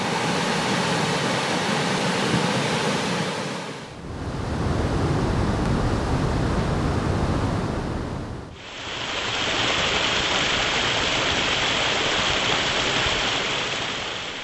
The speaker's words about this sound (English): If you guessed dams, you're right. You heard water at the Little River Dam and Hydropower Station near Radford, the Philpott Reservoir and Hydropower Dam on the Franklin County-Henry County border